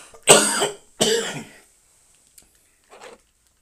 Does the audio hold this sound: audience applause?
no

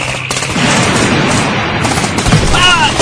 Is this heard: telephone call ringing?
no

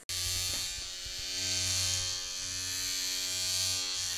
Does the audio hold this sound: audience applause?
no

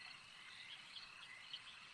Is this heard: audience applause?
no

